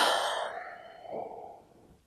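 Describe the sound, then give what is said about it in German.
Deep breathing during a guided relaxation exercise: a long, airy exhale fades out, then a softer second breath swells and trails away, with no talking. “Und atme jetzt mal tiefer ein und aus.”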